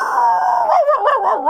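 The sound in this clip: A mixed-breed dog gives one drawn-out, wavering howl, loud and alone. The yowl holds steady at first, then wobbles up and down in pitch toward the end.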